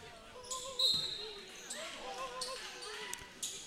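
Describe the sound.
A basketball is dribbled on the court during a boys' high school regional game: a few sharp, hollow bounces ring out over a steady crowd murmur, with faint voices in the background.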